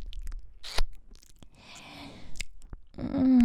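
Crunchy chewing of a snack being eaten, with crisp bites and irregular crackling mouth sounds at a soft level and no talking.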